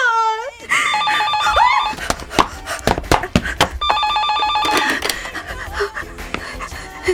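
A telephone rings in two bursts of bright, trilling bell tones, with heavy panting breaths and scattered clattering knocks around them.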